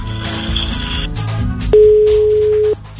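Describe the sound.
An unanswered telephone call gives one clear, steady, mid-pitched tone lasting about a second, preceded by a faint higher tone.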